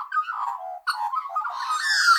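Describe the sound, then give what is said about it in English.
Magpie call: a warbling run of clear, fluting notes that breaks off briefly, then resumes with brighter, higher chatter building toward the end. “what's this sound? Magpie. Yes, it's a lovely sound.”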